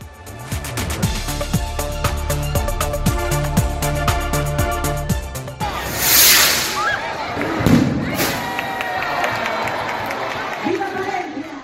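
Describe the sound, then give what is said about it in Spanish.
A large firework rocket launched to open a town festival in Palencia. Music with a steady pulsing beat plays first, then gives way to loud bursts over crowd noise and cheering. “Escuchan el cohetón que abrió nuestras fiestas el pasado viernes.”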